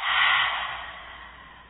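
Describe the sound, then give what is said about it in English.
A single deep, airy breath during a guided breathing exercise, loud at first and then tapering off over nearly two seconds, with no voice. “One more time, deep breath in and out.”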